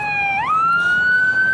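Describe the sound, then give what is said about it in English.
An ambulance siren sounds loud and clear on its own. Its high electronic tone holds, then sweeps up to a higher pitch and stays there. “Here comes an ambulance, hold on.”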